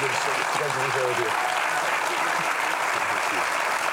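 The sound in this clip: A studio audience at a television talk show applauds a guest with steady, dense clapping that fills the whole stretch, and a voice speaks over it at the start.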